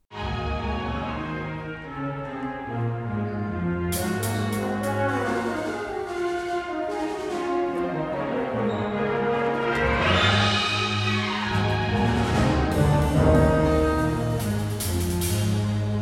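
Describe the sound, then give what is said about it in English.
A university school of music symphony orchestra rehearses for a new-music concert with sustained full orchestral chords and rich layered harmonics. Brighter high parts join about a quarter of the way through, and the level stays steady and moderately loud with no talk. “That was the sound of the USC Thorne School of Music Symphony rehearsing for their big night this week.”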